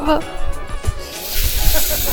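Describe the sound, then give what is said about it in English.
Orange juice poured into a drink: a soft hissing, splashing stream that grows fuller and brighter in the second half, following a brief low sound at the start. “Let me pour a little more of the orange juice in your drink.”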